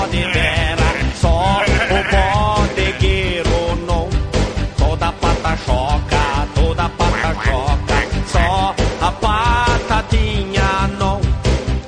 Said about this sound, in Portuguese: Todo bode berra.